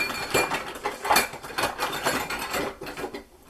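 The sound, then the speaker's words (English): Light clinks and scrapes of a quarter-teaspoon measuring spoon scooping baking powder for a chocolate recipe, a quick run of small metallic taps and rustles at moderate volume with no talking. “All right, so next we need a fourth teaspoon of baking powder and”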